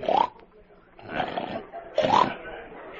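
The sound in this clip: A Hampshire boar at a livestock show lets out three low, rasping, snore-like grunts, each separated by a pause.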